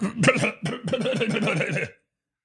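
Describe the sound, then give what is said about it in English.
An old man clears his throat in a rough, gravelly burst lasting under two seconds, with a pulsing, rasping rhythm that then stops into silence. “old guy throat clear there.”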